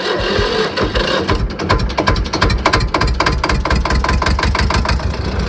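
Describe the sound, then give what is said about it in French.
An old farm tractor engine running, with a loud, rapid, evenly spaced knocking chug that holds steady throughout. “des tracteurs qui fonctionnent, d'autres qui fonctionnent moins bien. La plupart démarrent quand même au quart de tour, la preuve.”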